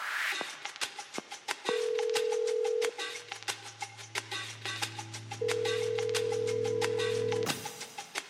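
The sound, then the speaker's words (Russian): Outgoing-call line tones on a telephone: a steady single-pitch tone sounds twice, the second held longer, over a bed of sharp clicks and ticks, with a low hum beneath. “Давайте сделаем звонок. Да, давайте, набирайте.”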